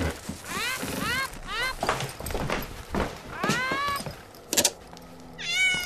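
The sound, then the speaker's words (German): A cat meows several times in drawn-out, wavering cries that bend up and down in pitch, with a few rustling and thumping sounds between them. “die Katze gestern hergebracht. Sie ist drüben im Labor.”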